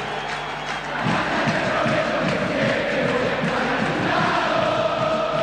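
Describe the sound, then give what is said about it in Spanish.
Crowd cheering in a football stadium as a shower of paper confetti rains down before the teams come out. A dense, steady roar swells after the first second and stays loud throughout. “Y apareció una lluvia de papelitos cuando los equipos no habían aparecido todavía. Se levanta el público en un clima notable.”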